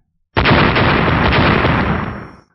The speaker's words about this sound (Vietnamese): Mỗi một đầu lôi quỳ sau khi đụng vào liền phát ra một tiếng nổ rung trời, toàn bộ lôi bạo hải dương cũng chấn động kịch liệt theo.